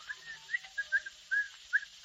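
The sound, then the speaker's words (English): A man whistles cheerfully while coming down the stairs, producing a jaunty, irregular run of short, bright notes that stays fairly faint throughout. “Down the stairs comes the happily demented Mr. Van Dyke, whistling cheerfully.”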